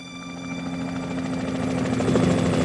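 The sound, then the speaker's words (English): Helicopter hovering over a tower roof, a steady droning hum of rotor and engine with a low pulsing throb and a thin whine above it, growing slightly louder toward the end. “Helicopter hovers over the tower roof and shines a searchlight into the square.”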